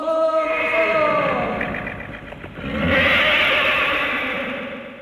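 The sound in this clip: A horse's whinny, used as a sound effect in an Egyptian radio drama of Arabian Nights tales about a flying horse: one long wavering neigh with shifting harmonics, then a loud, broad rushing surge.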